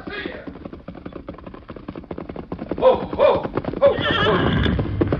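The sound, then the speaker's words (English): Hoofbeats of a horse galloping fast toward the listener, ridden by a rider: a rapid, steady clip-clop drumming that grows louder, with a high whinny breaking out near the end. “Sheriff, look at the way Trig Redden's riding this way. Yeah, coming mighty fast.”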